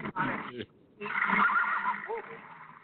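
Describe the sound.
A horse whinnies in a shrill, wavering call: a short burst, a brief pause, then a longer sustained cry.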